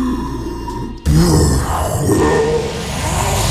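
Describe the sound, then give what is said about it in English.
A voice imitates a red dragon breathing fire: after a quiet second, a sudden loud, breathy roar bursts in, rushing and growling, and holds steady to the end. “I am a red Dragonborn, so my breath is fire. Now, observe.”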